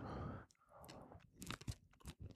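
Someone chews bread topped with Rolewski Polish mustard during a tasting. Close, crisp crunches and moist chewing come in irregular bursts, with no talking.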